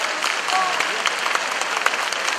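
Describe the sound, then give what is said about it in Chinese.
Warm applause from an audience at a Buddhist gathering forms a dense, steady wash of clapping that stays at an even level for the whole stretch. “现在让我们以热烈的掌声恭请尊敬的卢军红台长”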